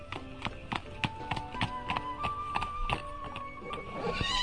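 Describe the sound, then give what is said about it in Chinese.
A horse whinnies while its hooves clip-clop steadily as a rider in merchant's clothes travels toward a city. The hoofbeats are quick and even, with the neighs woven over them. “于是他换上商人的衣服，骑着马来到法官住的城市。”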